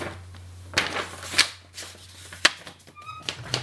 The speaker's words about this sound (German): Muss ich nochmal ein neues Blatt schnappen.